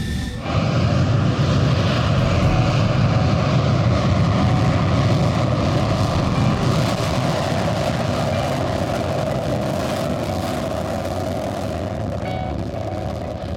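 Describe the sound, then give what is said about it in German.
Military jet aircraft take off from Runway One at Wittmund on a scramble alert, a continuous loud engine roar that holds steady and eases slightly near the end. “Direkt nach dem Start gehen die Maschinen auf nordwestlichen Kurs und erwarten die weiteren Anweisungen vom Tower.”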